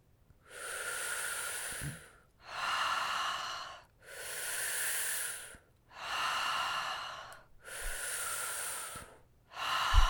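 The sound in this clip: Slow, hissing breaths are drawn as if sipping air through a straw during a breathing exercise. About five long breaths follow one another with short pauses between them, each evenly loud and airy, and a sixth begins at the end.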